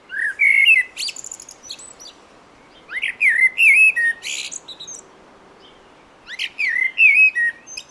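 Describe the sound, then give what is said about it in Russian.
A common blackbird sings three fluting whistled phrases, each ending in a higher, scratchy twitter. Clear pauses separate the phrases, and no voices are heard. “Если вы забыли, как поет черный дрозд, вот можете послушать и сравнить. Вот черный дрозд.”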